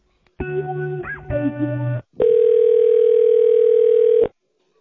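A telephone ringing tone plays while a call is transferred to a staff member: a short burst of electronic tones, a brief gap, then one long, steady mid-pitched tone of about two seconds before silence.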